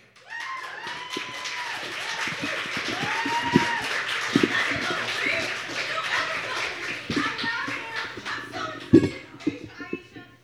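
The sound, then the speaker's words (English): An open mic poetry night audience claps as the final poet of the first round is called up. Scattered, uneven claps and taps continue over lively voices in the room. “Put your hands together for Link!”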